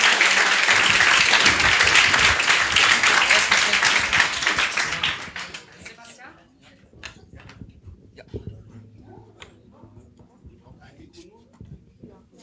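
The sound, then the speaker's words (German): Loud audience applause as a team is called onto a stage, sustained for about five seconds before fading to a much quieter, sparse background. “Großen Applaus für No Game, No Glide.”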